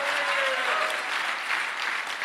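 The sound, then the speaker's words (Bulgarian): Steady, dense applause from an audience at a religious gathering, loud and unbroken throughout. “Хайде, ръкопляскай, като че вече си там.”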